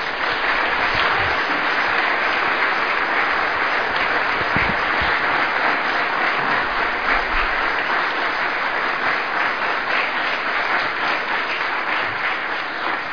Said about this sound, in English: if you would put your hands together and give a very warm welcome to Dr. Ray Pendleton.